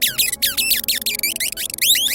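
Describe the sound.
Rat enemy sound from a video game: shrill, rapid squeaking made of many quick high-pitched chirps that sweep downward, chattering in a dense, nearly continuous stream.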